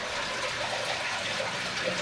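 Water flowing at a reservoir, heard as a steady, even rush with no breaks or distinct splashes throughout, and no voices.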